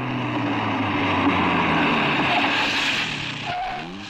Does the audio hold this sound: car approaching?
yes